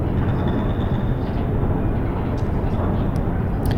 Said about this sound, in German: Der Aufzug fährt nach unten und bleibt jetzt stehen.